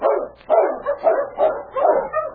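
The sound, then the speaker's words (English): Sled dogs barking: a quick run of many sharp barks and yips in an uneven rhythm, loud and without talk. “He turned his attention to the dog team again.”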